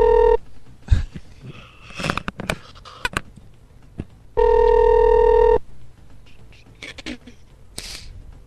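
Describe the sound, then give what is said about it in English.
A telephone rings in a hotel room: a short burst of steady, bright electronic ringing, then a longer second ring, with scattered handling noises and rustles around them. “He's probably unplugged his phone now. I hope there's two phones in the room and you had to hear it ring again.”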